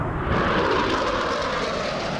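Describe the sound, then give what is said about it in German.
Two fighter jets thunder past in low flight, making a loud, dense, steady roar of engine noise that fills the whole moment with no voices. “Zwei Düsenjäger donnern im Tiefflug über uns hinweg. Fliegen Richtung Krähenberg. Drehen kurz vorher ab. Und jagen wieder auf uns zu.”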